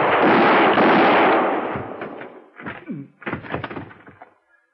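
Gunshots in a Western-style gunfight: a loud blast that decays over about two seconds, followed by a few sharper bangs of lower loudness.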